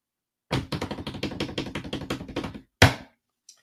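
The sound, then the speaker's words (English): A drum roll announcing the winner among five nominees: a quick, even run of many crisp strikes lasting about two seconds, then a brief pause and one louder closing hit. “All right, ladies and gentlemen, those are your five nominees. Now, let's get a drum roll, please.”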